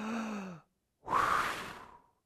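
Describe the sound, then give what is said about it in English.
A voice imitates God breathing life into Adam's nostrils with one long, breathy exhale lasting about a second. It follows a short voiced sound and ends in a fading hiss. “and he breathed into Adam's nostrils”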